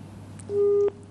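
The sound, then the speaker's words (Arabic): A phone line going dead as a call drops, giving a single steady electronic tone of under half a second that stops abruptly, heard alone over a low constant hum. “انقطع الاتصال.”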